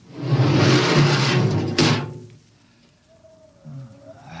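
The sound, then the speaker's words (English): Spaceship airlock opening: a loud rushing hiss for about two seconds that ends in a sharp clunk, followed by quieter rustling and a faint steady whine. “All right, Park, you. Open the airlock. Aye, sir.”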